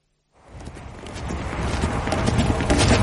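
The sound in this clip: Horses' hooves clip-clop as riders travel together: after a brief silence, a quick, steady stream of many hoof beats begins and grows gradually louder to the end.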